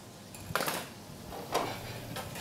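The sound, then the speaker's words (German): A plate clinks softly as a schnitzel is laid on it in a kitchen. A few faint, brief clatters are separated by quiet gaps. “So, jetzt nehme ich mir mal einen Teller. Jetzt lege ich einen Schnitzel auf den Teller.”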